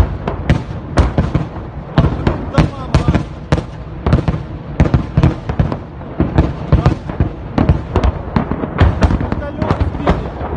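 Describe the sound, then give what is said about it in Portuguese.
Explosions during the Russian bombardment of Kyiv, the Ukrainian capital: many sharp, booming blasts and cracks in rapid, irregular succession throughout, with voices heard between them. “Pela segunda noite seguida, a Rússia manteve o bombardeio de Kiev, a capital da Ucrânia”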